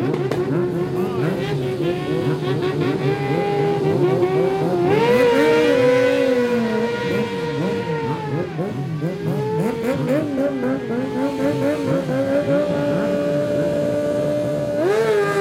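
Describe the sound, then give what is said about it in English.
Racing motorcycles setting off from the start line of Race 1 at the Isle of Man TT, released at ten-second intervals, engines loudly revving and rising in pitch in surges over a continuous roar, with some talk underneath. “As you can hear in the background, bikes are going off now. 10-second intervals.”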